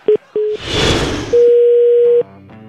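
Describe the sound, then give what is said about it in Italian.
Telephone line tones after a dropped call: two short beeps, a burst of noisy hiss, then a long steady mid-pitched tone that gives way to a lower layered hum, loud and clear with no talk. “è caduta la comunicazione evidentemente”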